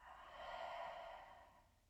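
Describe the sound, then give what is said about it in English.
One deep breath in and released during a calming box-breathing exercise: a soft, airy breath that swells smoothly and then eases away, quiet and alone. “Let's start by one deep breath in and release.”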